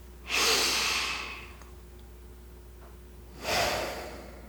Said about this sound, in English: I'd like to invite you to breathe in and out through your nose.